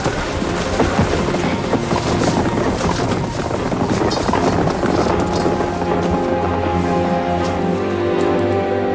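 Horse hooves clip-clop along a road as riders set off on a night journey, a steady run of hoofbeats carried under a continuous rushing, wind-like noise.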